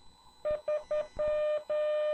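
Morse code tones sending the digit 3 of a ham radio call sign: three short beeps followed by two long ones, a steady mid-pitched tone heard on its own.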